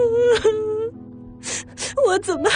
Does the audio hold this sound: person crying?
yes